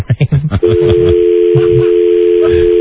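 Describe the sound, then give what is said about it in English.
A steady telephone dial tone sounds after a brief burst of speech and holds unbroken to the end, with voices talking over it. “Now you're trying to dial your phone.”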